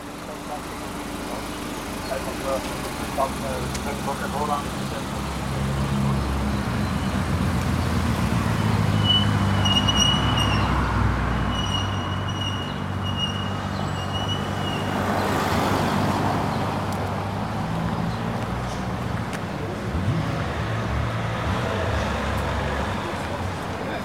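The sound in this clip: Cars passing on a road in an otherwise quiet setting: a broad, steady rumble of traffic that swells as vehicles go by and then settles back.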